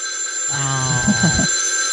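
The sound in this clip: A telephone ringing in one short burst of about a second, with a buzzy tone cluster over a steady background hum. No one talks.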